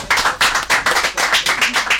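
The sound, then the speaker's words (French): Audience applause in unison: fast, steady rhythmic clapping with many evenly spaced bright claps, loud and clear. “Allez, on va s'acclamer tous.”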